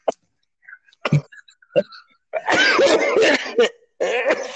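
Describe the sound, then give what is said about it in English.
Coughing comes as a few sharp, separate coughs with brief silences between them, followed by longer, rough, noisy vocal bursts that carry on to the end. “let me start that coughing crap again.”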